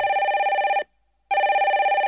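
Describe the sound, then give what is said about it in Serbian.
A telephone rings twice: a steady, bright electronic tone with a slight warble, broken by a short pause between the two rings. “Nakon pet godina hemodijalize, telefon je konačno zazvonio”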